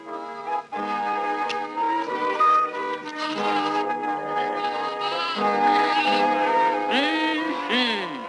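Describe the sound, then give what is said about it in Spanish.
A flock of sheep bleats in a 1945 Disney cartoon, with many loud, quavering cries overlapping continuously. Some calls waver and bend in pitch, and no voices are heard. “Pero todo este rebaño de ricas chuletas estaba bien resguardado”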